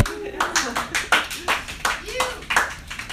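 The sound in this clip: Audience applause at a comedy show as a comedian takes the stage: brisk, steady clapping throughout, with faint voices mixed in.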